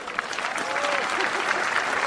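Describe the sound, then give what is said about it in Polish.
Audience applause at a Polish cultural festival ceremony as a large neon sign is presented: dense, steady clapping from a crowd that holds at an even level throughout. “Teraz możecie państwo wbić brawo sobie.”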